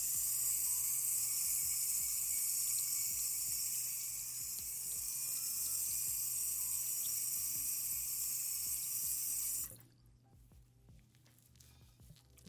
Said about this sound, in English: Okay, so now that the soap is in there, I'm going to rinse it out.